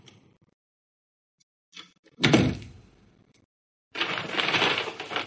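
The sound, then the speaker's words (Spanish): A door is opened: a small click comes first, then a heavy thunk that fades out, and after a short silence a longer, rough, noisy stretch follows. “Abre la puerta y ve que no hay nadie.”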